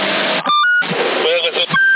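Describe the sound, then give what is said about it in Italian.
CB radio microphone beep on the 27 MHz band: a brief stepped sequence of electronic tones, then another short tone near the end, set in noisy, band-limited radio audio where a voice can be heard. “Aspetta che ti provo un'altra cosa. Questo è il beep del mic.”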